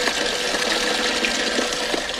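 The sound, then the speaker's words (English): Water is poured into a bucket, making a continuous, even rushing and splashing that holds at steady loudness throughout with no voices. “He was pouring water in a bucket.”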